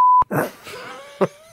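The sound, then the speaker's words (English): A car alarm triggered when someone approaches a car, set to an unusual sound rather than a normal siren: a steady high beep, then loud moaning, voice-like wails with a short burst near the end. “then someone sneaks up to the car and I guess maybe checking whether they can break into it or checking whether it's open and then this is the alarm.”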